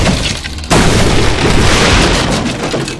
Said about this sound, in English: The door sound you're hearing off to the right, that's a door.